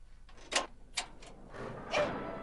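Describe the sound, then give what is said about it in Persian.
A door is opened: a few short clicks and knocks come first, then a longer, softer rushing sweep as it swings, all fairly quiet. “من درو باز کنم.”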